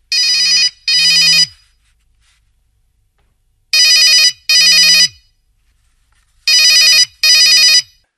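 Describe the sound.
A telephone rings loudly in three bursts, each a pair of bright, buzzing electronic trills with a low hum beneath, separated by pauses of about two seconds.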